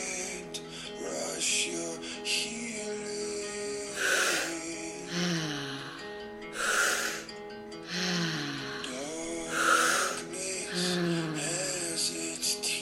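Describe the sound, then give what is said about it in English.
Deep breaths from a breathing exercise come as several slow, full inhales and exhales, each a soft airy swell at an even pace, alone without speech. “Almost there. 10 more breaths. Give these all you've got.”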